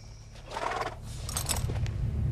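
Horse noises as a rider climbs off his horse during a Western gunfight standoff, with rustling, shuffling movement and a rough, breathy whinny-like burst over a steady low rumble that grows slightly louder toward the end.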